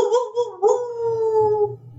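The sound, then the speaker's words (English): Howling cryptid sound effect: a couple of short broken cries followed by one long, sustained tonal wail that fades out, over a faint low rumble. “How about that sound effect, ladies and gentlemen? So without any further ado, we'll let the Howler do his thing.”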